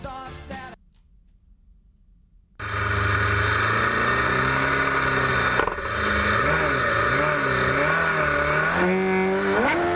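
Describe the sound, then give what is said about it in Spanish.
Engine of a barchetta race car revving, after a brief snatch of music and a short quiet pause: a loud, sustained roar whose pitch wavers up and down repeatedly, then climbs higher near the end. “Supongo que no se le hará nada raro a Ángela Vilariño escuchar este sonido, el sonido de su barqueta.”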